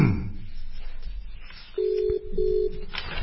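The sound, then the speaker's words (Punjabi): Telephone ringback tone as a call is placed: two steady, even, low-pitched tone bursts, each under half a second, separated by a short gap over faint background noise. “ਅਸੀਂ ਰਜਿੰਦਰ ਸਿੰਘ ਜੀ ਉਹਨਾਂ ਨੂੰ phone ਕਰ ਦਿੱਤਾ।”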